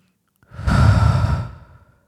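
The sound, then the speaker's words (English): A single deep, slow breath taken during a guided calming exercise, heard alone as a soft, breathy rush that swells and then trails away over about a second and a half. “Close your eyes and just take the first of your deep breaths.”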